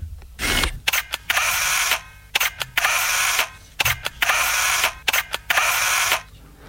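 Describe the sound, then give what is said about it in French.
A camera takes several photos in a row. Each shot gives sharp shutter clicks and a sustained mechanical whirring burst, and the cycle repeats a few times with short gaps and no speech. “J'ai encore pris quatre clichés.”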